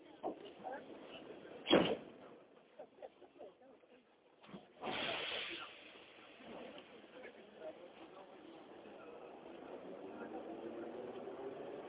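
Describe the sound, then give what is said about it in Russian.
Moscow metro train doors shut with a sharp bang, followed a few seconds later by a longer hissing whoosh, then a rising, rumbling swell as the train carries on, with indistinct voices in the background. “Осторожно, двери закрываются. Следующая станция – Чистые пруды.”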